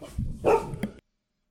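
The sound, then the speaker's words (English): Dogs bark in an excited outburst: a few sharp, loud barks packed into about one second, then silence. “Sorry, we are taking a momentary doggo break as they start going wild here.”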